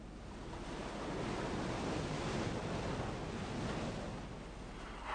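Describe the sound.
Sea waves wash steadily in a continuous rushing surf that swells in the middle and eases toward the end, with no voices.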